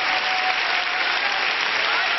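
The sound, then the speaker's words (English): A church audience clapping hands during a worship service: a brief, dense burst of many hands clapping at a steady, loud level. “Let's clap our hands and love Jesus.”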